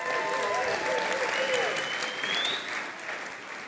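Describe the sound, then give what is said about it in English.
Audience applause welcoming a youth worship leader to the front at a church service: full, steady clapping that holds at an even level for the whole stretch. “Now, I want you to put your hands together and welcome with me one of our youth, one of our worship people, one of our leaders in our preteen program”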